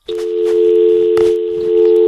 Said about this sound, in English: that's what the dial tone sounds like.